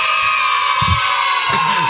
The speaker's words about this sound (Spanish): La alegría de los chicos, pibes, ¿no? Es tremendo. Aparte los imagino todos juntos gritando.